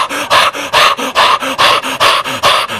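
A dog pants in quick, loud, steady breaths close by, each huff rasping and breathy, repeating in an even rhythm with no voices.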